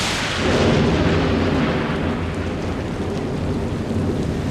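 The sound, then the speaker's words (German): A thunderclap during a summer thunderstorm: a loud, deep rumble swells in after a moment and rolls on steadily without fading, under a broad rain-like hiss. “Ach ja, da hatte man so tolle Pläne für einen Tag am See oder war den ganzen Tag schon schaukeln und dann plötzlich boom, krachendes Gewitter, große Regentropfen und vielleicht sogar Hagel”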